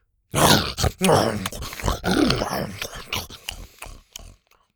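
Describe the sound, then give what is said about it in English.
A voice imitates a creature chomping and grinding through a plate of hotcakes with a run of loud, wet grunting and munching bursts that trail off into quiet at the end. “Before she could hand the plate over, Buck was already chomping into it, grinding through it like a wood chipper.”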